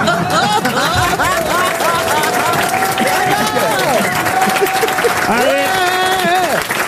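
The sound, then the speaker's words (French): A studio audience at a French radio game show applauds and cheers. The crowd noise is dense and steady throughout, with raised voices and shouts mixed in. “Le public vous aide et acclame Christophe Beaugrand.”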